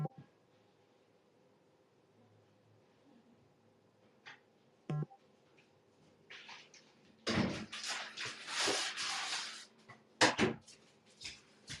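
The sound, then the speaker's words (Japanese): A door in a rented apartment is closed. A few faint clicks come first, then a cluster of louder knocks and rattling thuds, with one sharp bang near the end against a quiet background. “このドアを閉める時の音で、ここの物件だって分かるとかないよね。”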